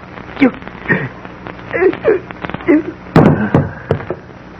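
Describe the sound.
A single sharp gunshot rings out in a radio drama as a loud, crisp crack between tense voices shouting and talking.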